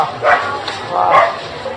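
A temple dog barks twice, two loud, fairly high yelping barks separated by a short pause.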